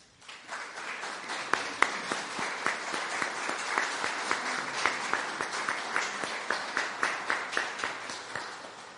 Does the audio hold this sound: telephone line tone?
no